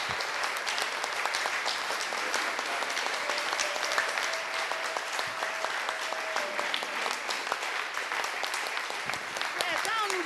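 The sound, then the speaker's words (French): An audience claps for the Lord at a church prayer gathering, a dense, steady wash of many hands that holds at an even level throughout, with voices mixed in. “Yes, begin by clapping for taking us into the fifth day. Clap the Lord.”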